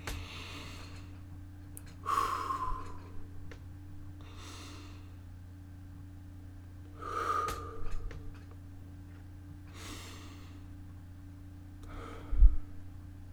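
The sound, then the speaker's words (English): Three big deep breaths, each a soft airy inhale and exhale separated by quiet pauses. The breathing is faint and unhurried, with no talk over it. “take 3 big deep breaths right now.”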